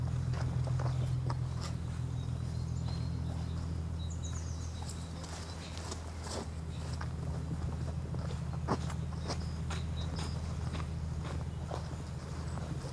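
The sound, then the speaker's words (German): Footsteps walking in a forest: faint, irregular crunching steps repeat over a steady low hum and stay quiet throughout. “Wir hören unsere Schritte.”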